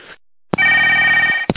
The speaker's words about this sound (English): Should answer the phone.